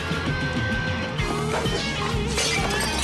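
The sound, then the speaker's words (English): Heavy glass vase smashed against someone's head in a violent fight, with a couple of sharp crashing impacts over a tonal background. “Becky grabs a heavy glass vase and smashes it against Helga's head.”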